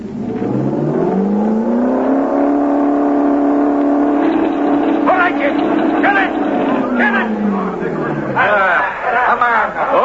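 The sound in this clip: An engine pushed to full throttle, a loud droning hum that climbs in pitch at the start, holds steady, then drops near the end, with voices talking over the later part.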